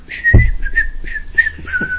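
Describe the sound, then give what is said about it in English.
A person whistles a tune while standing on a film set in a bugler's outfit. The melody moves through a string of clear, high notes that rise and fall, steady and fairly loud, with no talk. “And I'm just so happy in my bugler's outfit, you know, and I'm just whistling.”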